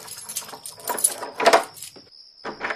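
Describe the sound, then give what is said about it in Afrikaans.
Keys jangle and click as a front door is locked at night in a drama, a scattered run of short metallic rattles and clicks of varying loudness. “Wag, Freek, dat ek die voordeur sluit.”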